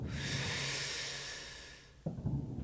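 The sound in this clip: A person breathing in, a long airy hissing inhale of about two seconds that slowly fades, followed by a short, lower rustling burst.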